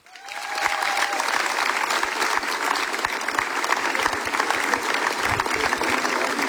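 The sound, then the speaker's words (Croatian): Festival audience applause that swells within the first half second into dense, steady clapping, holding at an even, loud level to the end. “i sad kako smo vježbili aplauzi, tako ćemo i nastaviti”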